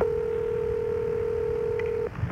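Electronic telephone tones as a number is dialed: a single steady pitch held for about two seconds, then cut off, with a short burst of faint noise at the end.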